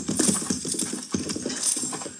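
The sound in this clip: Horses' hooves clip-clopping as men ride by in a Western frontier setting, a brisk, steady clatter of overlapping hoofbeats with a short lull around the middle.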